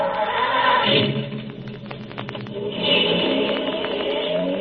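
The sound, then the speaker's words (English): A robot-operated automobile driving off, done as a radio drama sound effect: a steady engine-like rumble that swells, thins briefly and then builds again, with no voices over it. “This is a robot-operated automobile. Observe. I merely press this button. Yes, Colonel Bronlich. Drive us to the Castle Deklitz.”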